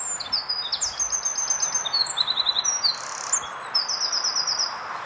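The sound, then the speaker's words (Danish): Swallow song from a recording taken from the internet: rapid, high-pitched twittering and chirping phrases with buzzy trills, running continuously over faint background hiss. “Men altså, det er jo også en forårsbebuder, og foråret er jo kommet, men hvorfor er gærsmutten så ikke?”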